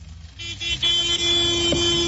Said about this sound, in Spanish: Así como mi compa accionando el claxon, compadre. ¡Pítale, pítale!